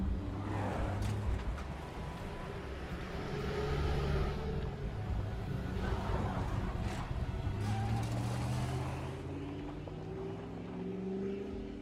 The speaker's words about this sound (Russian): Сара вместе с Сидом уехали на красном пикапе.